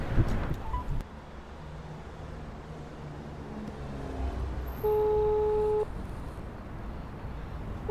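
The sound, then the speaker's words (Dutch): A phone call rings out on the line: one steady buzzing ring tone lasts about a second, over constant wind and traffic noise outdoors. “Ik ga ze bellen.”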